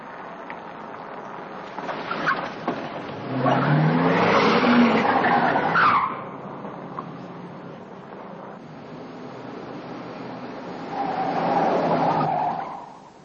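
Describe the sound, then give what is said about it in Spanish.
A blue Ford pursues a brown Lincoln with foreign plates along an avenue, two loud bursts of engine roar and skidding tires separated by a quieter stretch of road rumble. “Buddy monta en el Ford azul. Va el Lincoln marrón con matrícula extranjera. Persiguen a Sal Boca.”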